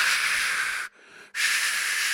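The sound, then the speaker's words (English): A voice imitates furious, heavy falling snow with loud, rushing breath hisses in two long bursts, split by a brief, quieter pause for breath. “So much snow, I had to stop and take a breath to make the sound effect.”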